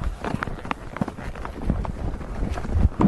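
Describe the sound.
A horse trots along a riding route through a small village of white houses, its hoofbeats coming in a quick uneven rhythm of soft thuds mixed with rustling and wind, fairly loud with no clear talk.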